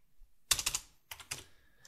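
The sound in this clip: Typing on a computer keyboard while entering text into video editing software, heard as a few quick bursts of clicking keystrokes separated by short pauses, with no talking.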